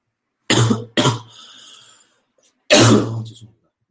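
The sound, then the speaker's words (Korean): Three harsh, loud coughs from a single person: two come in quick succession, then a third follows after a short pause with a faint raspy breath between them. “자꾸 기침이 심하네요.”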